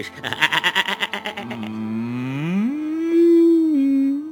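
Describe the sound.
A cow gives a loud bellowing moo. A quick stuttering pulse leads into a long, drawn-out low that slides upward in pitch and then holds steady to the end.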